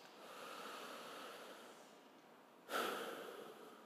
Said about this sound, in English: So take a breath.